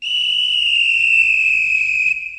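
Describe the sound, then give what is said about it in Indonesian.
A long, steady, high-pitched whistle blast signals the start of a children's whispered-word chain game. It holds one loud, even note for about two seconds and then cuts off. “Setelah mendengar suara peluit panjang seperti ini,”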